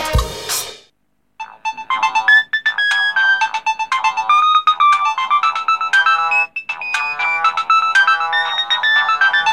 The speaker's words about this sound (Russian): Вы не поверите, это звук той самой Nokia. Самой одной из первых Nokia.